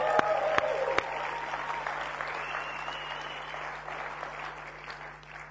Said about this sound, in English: Why don't you give Lynn a hand?